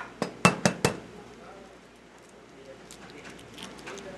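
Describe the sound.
Eggs are cracked on a flat surface, with the whites spilled into one bowl and the yolks plopped into another. Four sharp, clinking knocks come in quick succession at the start, followed by quieter, soft handling sounds.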